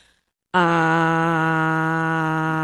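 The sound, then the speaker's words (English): A voice holding a single vowel 'ah' aloud as a breath in tonal meditation, a loud, steady, low-pitched tone that begins after a brief silence and is sustained to the end. “Tonal meditation is just when you say, you take a vowel or something and you just say it out loud as a breath. So, ah.”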